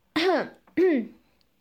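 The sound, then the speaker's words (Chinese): Two dry, voiced throat-clearing coughs from a person, short harsh bursts about half a second apart, each arching up and then down in pitch, heard alone against silence. “我略带生气地干咳了两声”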